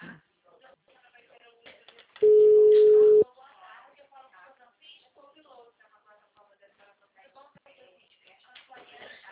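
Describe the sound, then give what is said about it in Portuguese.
A telephone ringback tone sounds on an outgoing call: one steady, mid-pitched tone lasting about a second, loud against the quieter talk before and after it. “Agora acho que está chamando.”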